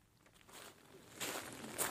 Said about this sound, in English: Crunch of shells and sand beneath our feet as we walk along the narrow strip between an open expanse of mud flats